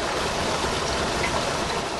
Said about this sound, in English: Meshek Creek is a stream that flows through eastern Kewaunee County and into Lake Michigan.